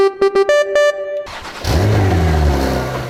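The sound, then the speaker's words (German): A Porsche sports car with a combustion engine revs, a loud engine roar climbing in pitch, after a few short tonal notes at the start. “So klingt ein Porsche. Also ein Porsche mit Verbrennermotor.”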